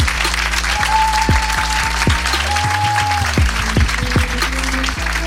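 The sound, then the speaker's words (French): Steady, dense applause from a live show audience, a continuous wash of clapping with sharp individual claps standing out throughout and no pauses. “Faites un maximum de bruit pour Guédré!”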